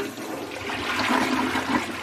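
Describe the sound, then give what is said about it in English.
A toilet flushes with a loud, continuous rush and gurgle of water for about two seconds, with no voices. “So they cut to a toilet flushing”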